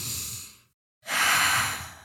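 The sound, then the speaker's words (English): A deep breath in and out is taken during a guided calming exercise. Two airy, breathy rushes are split by a brief moment of silence, with no voice over them. “Take a deep breath in and out with me.”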